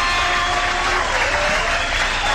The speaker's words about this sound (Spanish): Y un aplauso bien grande para estos bellos tesoros. Eso es. Vaya, el aplauso